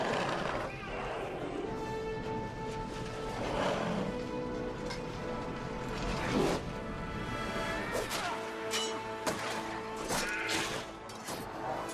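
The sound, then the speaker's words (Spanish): Heavy smashing and whacking impacts of a swordsman fighting orcs with a two-handed sword in a forest clearing, in a dense, continuous clash of blows and swishes. “Lentamente avanza hacia ellos, empuña su espada con ambas manos y lucha contra los que corren hacia él.”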